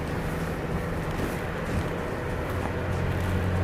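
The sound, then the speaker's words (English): A Sprinter van climbs a steep, loose dirt slope over a sharp crest on an off-road course, its engine giving a steady low drone with rough, grinding texture that stays at an even level throughout. “The vehicle's climbing up over and the front end drops, but we don't bottom out on the way down.”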